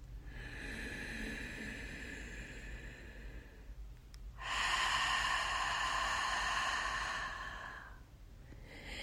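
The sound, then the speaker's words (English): A long, breathy exhale through the mouth during a guided relaxation breathing exercise, a steady airy hiss that swells and holds for a few seconds over faint background noise. “Exhale through the mouth. And one more time.”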